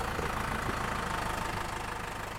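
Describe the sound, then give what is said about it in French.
Steady engine drone from a tractor heading back from an orchard loaded with apples, a continuous low throbbing hum with a faint regular pulse that holds even and eases slightly toward the end. “Le tracteur rentre le premier du verger avec les pommes.”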